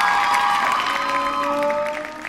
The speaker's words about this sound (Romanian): După câțiva pași profesorali, eu vă voi cere să aplaudați.